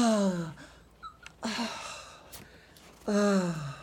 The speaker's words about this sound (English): breathe very deeply, if you would, please. Breathe very deeply.